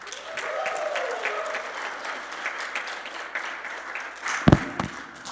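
An audience applauds a rowdy welcome with a steady, continuous patter of clapping that holds throughout, broken by one sharp loud thump near the end.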